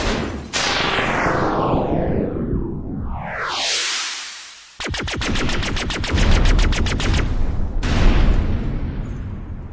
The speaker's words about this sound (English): Those automated Veronese pods are deadly, but stupid. They tracked the hot thruster and fired at it when it got between them.